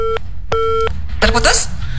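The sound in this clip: A telephone busy tone after a call is cut off: two steady two-pitched beeps separated by a short gap, followed by a voice talking.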